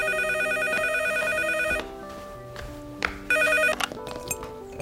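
A telephone rings at home before the receiver is picked up: a fast electronic trill in two bursts, a long one and then a shorter one after a pause, over steady sustained tones.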